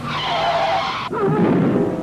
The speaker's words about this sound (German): Eine Unachtsamkeit und schon ist der Zusammenstoß da.